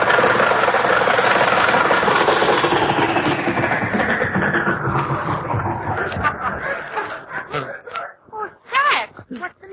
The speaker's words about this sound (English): Oh, I think the cylinders are out of gas.